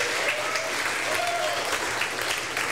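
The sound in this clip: Applause from an audience welcoming a performer to a live radio show, a dense, steady wash of clapping that holds at an even level for the whole stretch.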